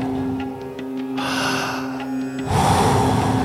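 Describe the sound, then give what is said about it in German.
Two long breaths, one in and one out, during a guided breathing exercise: soft, airy rushes over a steady musical drone, the second breath louder and fuller than the first. “Einatmen, ausatmen. Einatmen, ausatmen.”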